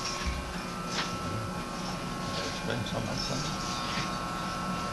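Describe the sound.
Machine polishing rough marble until it shines: a steady, dense grinding hum with a constant whine and no breaks, holding an even loudness throughout.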